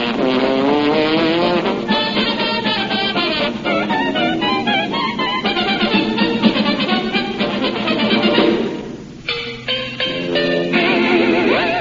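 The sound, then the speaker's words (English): Race car sounds of the Indianapolis automobile race: loud, continuous roaring engine tones with gliding pitch, broken by a sharp interruption near the end before the roar resumes. “that's the one in which you described the Indianapolis automobile race”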